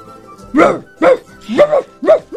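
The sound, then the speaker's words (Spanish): A dog barking in a stressed household: several sharp, mid-pitched barks in a steady, fairly quick rhythm, loud and clear with little else around them. “Hasta el perro está estresado en esta casa.”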